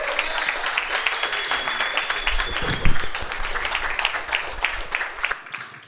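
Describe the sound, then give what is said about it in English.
A church audience applauds a guest pastor welcomed at Activation Church: dense, steady clapping from many hands, sustained at a fairly even level for several seconds before cutting off abruptly near the end. “So would you do me a favor, stand to your feet, put your hands together, and give an Activation Church welcome to Pastor Craig Sloan.”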